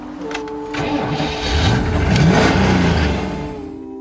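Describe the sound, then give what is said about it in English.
Engine of a Cyclone car, rated at 185 and loaded with passengers, cranking and revving. A steady tonal drone swells to a louder, rougher peak midway, then eases back without cutting out. “You got the Cyclone. This is clocked at 185, loaded. 4 men, pretty woman sitting right here. Me, 13-year-old, sitting between 2 in the back. Let's crank her up.”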